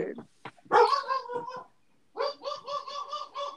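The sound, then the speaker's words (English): A big dog barks: a loud cluster of barks, then a short pause, then a quick run of repeated, evenly spaced barks. “No way, that's not the wiener dog. No, that dog sounds weird. That is the wiener dog. That dog sounds weird. Nope, that was the big dog.”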